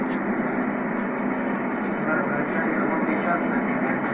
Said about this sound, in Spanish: Es un avión este, todo blanco con una franja anaranjada que vuelan, regularmente vuelan para España. A ver si se alcanza a oír las turbinas.